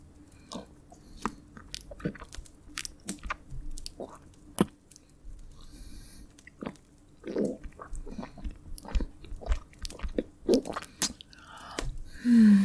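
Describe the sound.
Wet tongue licking and slurping mouth sounds: many short, squishy smacks and clicks in an irregular rhythm, fairly quiet, with no talking.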